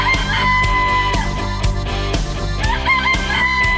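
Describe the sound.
Rooster crowing rings out loud and bright over a bouncy musical backing with a steady beat, repeating through the passage.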